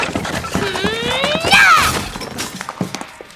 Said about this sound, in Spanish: Patea la estantería y la hace caer.